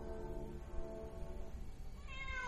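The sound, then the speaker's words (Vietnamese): A wounded cat yowls in a horror tale: faint, drawn-out harmonic wailing, then a higher-pitched cry near the end. “Con mèo vừa ngã xuống đất điên cuồng lăn lộn. Lão đạo sĩ kẹp ra hai đạo linh phù, vội vàng dán lên hai cỗ thi thể. Lúc này tiếng kéo dài hỗn loạn kêu lên.”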